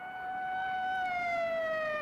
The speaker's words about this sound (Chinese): 远处忽然响起了警车声